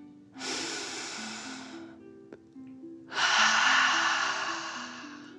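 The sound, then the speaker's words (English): A slow, deep breath in and then out: two long, breathy rushes of air, each lasting over a second, separated by a short pause, with soft, steady low tones underneath. “Last one, fill up your belly, deep breath. In and out.”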